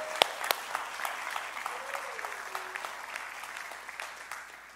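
A church audience applauding to welcome visiting friends: a few sharp, loud claps at the start swell into dense, even clapping that gradually fades toward the end.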